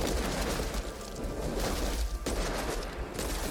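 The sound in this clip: Gunfire and booms from a video game trailer, a dense, loud barrage of shots and blasts that runs almost without a break through the whole stretch.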